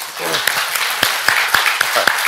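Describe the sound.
Applause from a church audience clapping for a man who helps at the church, a steady burst of many claps with a few voices mixed in.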